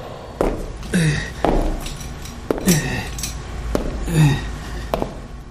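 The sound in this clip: Footsteps in a factory workshop: a worker in welding gear and a hard hat walks with an exaggerated, robotic gait. Many clanking, metallic steps ring out at an uneven pace, alone and fairly loud.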